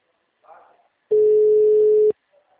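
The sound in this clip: A telephone call fails to ring through, producing one loud, flat electronic tone lasting about a second, with faint voices briefly before and after it.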